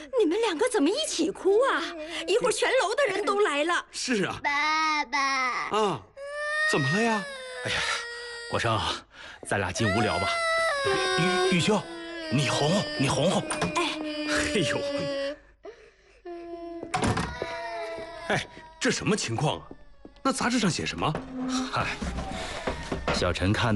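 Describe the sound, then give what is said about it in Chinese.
Two people crying together: loud, wailing sobs with sliding pitch that go on almost continuously, with only brief breaths and one short pause. “你们两个怎么一起哭啊？一会儿全楼的人都来了。”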